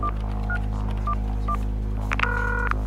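A telephone dials a call to Sun Microsystems: a few short touch-tone beeps spaced apart, then a quicker cluster of tones, all over a constant low electrical hum.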